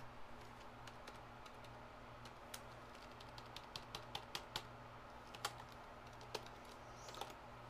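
Typing on a computer keyboard while searching for flu case figures: many irregular, crisp key clicks at an uneven pace, with a few sharper strikes, over a faint steady low hum.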